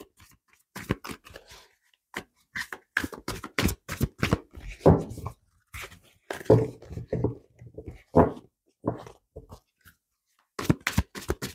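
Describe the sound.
Tarot cards are shuffled and handled on a cluttered table: irregular crisp snaps, slaps and rustles come in bursts of varying loudness, separated by short pauses.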